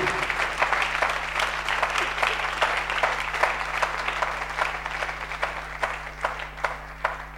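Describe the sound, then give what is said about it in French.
An audience applauds: steady, dense clapping from many hands continues throughout without pause, over a constant low hum. “Oh, acclame Dieu.”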